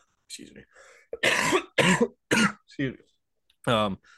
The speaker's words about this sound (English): Let's censor that cough out.